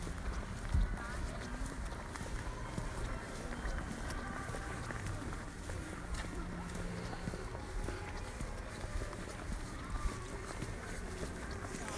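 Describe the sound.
Faint footsteps of someone walking fast, quick and steady, buried in a low, continuous background rumble for the whole stretch.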